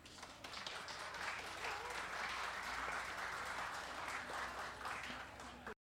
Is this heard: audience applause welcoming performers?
yes